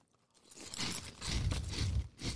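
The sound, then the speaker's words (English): People biting and chewing food, giving a few crunchy, noisy bursts of moderate loudness that come in uneven clusters after a quiet start, with no talking. “So can you please, let's just eat this.”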